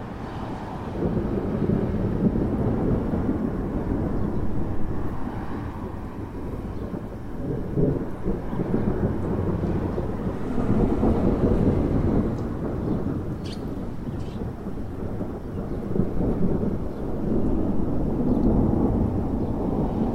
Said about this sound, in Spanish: Vamos a escuchar a continuación la breve aportación de Sofía, titulada Lluvia, 19 de abril.